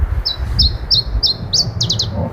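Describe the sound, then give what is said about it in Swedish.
An Iberian chiffchaff sings a series of high, bright chirping notes, the first few evenly spaced and the last ones packed into a quicker run, over a low rumbling background. “Iberisk gransångare. Det är det som gäller. Det här är en ovanlig fågel som har dykt upp, eller vad?”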